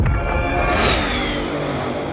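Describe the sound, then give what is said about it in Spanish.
Loud, dense engine roar from a car of about 500 horsepower, a steady heavy rumble that surges briefly in the middle before settling back. “Did you hear that? That's what an estimated 500 horsepower sounds like.”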